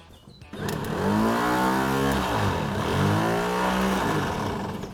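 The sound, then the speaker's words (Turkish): A starter motor, wired directly to it, cranks a car engine with a loud, sustained mechanical whirring whine. The pitch wavers as it churns steadily for about four seconds, and no voices are heard. “Bunu doğrudan marş motoruna bağlayacağım ve motoru çeviriyor mu bakacağım.”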